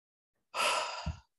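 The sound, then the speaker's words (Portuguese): A deep breath taken during a guided breathing exercise: one soft, airy, sigh-like exhale lasting under a second, followed by a low soft thump, alone in silence. “E para começar a falar desse assunto, eu só vou pedir a vocês assim que respirem profundamente”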